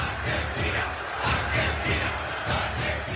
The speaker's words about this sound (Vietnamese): hàng trăm ngàn người hâm mộ Argentina tràn ngập đường phố thủ đô Buenos Aires.